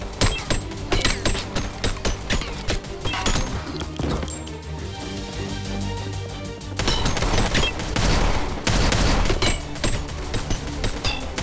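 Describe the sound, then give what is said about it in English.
Dense, loud gunfire with sharp metallic bullet impacts striking body armor, a continuous barrage of cracks and clanks that swells in intensity in the second half, with no talk. “But this was purely metal impacts. I mean, with some cloth rips too, is because it's hitting sort of a body armor that they're wearing.”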